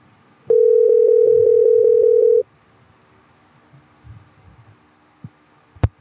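A telephone call tone sounds as someone dials out: one steady mid-pitched tone lasts about two seconds. Quiet follows, broken by a few soft low rustles and two sharp clicks near the end.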